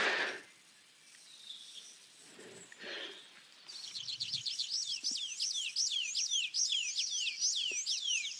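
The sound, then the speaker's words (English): Two tree pipits sing against each other in a territorial dispute. Rapid, high, repeated chirping phrases sound loud and continuous through the second half. Only faint, low sounds come before them. “There we go, there's two tree pipits fighting it out there.”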